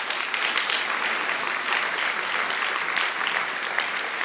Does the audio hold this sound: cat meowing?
no